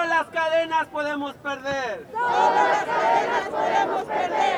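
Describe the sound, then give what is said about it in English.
A crowd at an immigrant rights rally at the state capitol in Olympia, Washington, chants a rhythmic Spanish slogan in unison twice, with loud massed voices. “That's the sound of people chanting at the state capitol in Olympia, Washington.”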